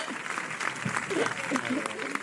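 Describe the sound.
Audience applause, a dense, steady clatter of many hands with scattered voices calling out over it.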